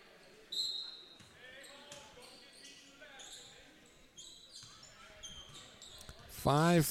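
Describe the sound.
A basketball is dribbled on a gym floor during a high school boys' game, Marine City at Port Huron, with repeated bounces under steady crowd noise and voices, ending in a loud, sharp burst of sound.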